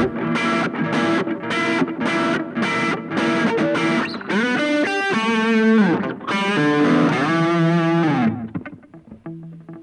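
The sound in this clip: Electric guitar through an amp with gain distortion plays a loud, driven passage: a run of repeated, chopped chord hits, then long sustained chords with wavering overtones, ringing out and fading at the end.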